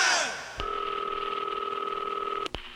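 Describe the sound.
A telephone keypad dialing tone holds steady as one bright two-pitch beep for about two seconds, bracketed by short sharp clicks.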